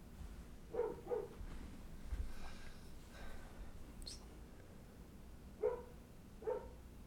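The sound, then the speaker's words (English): A dog barking outside: a few faint, short barks, two close together early on and two more near the end, over a low steady background. “sorry, my dog's barking outside”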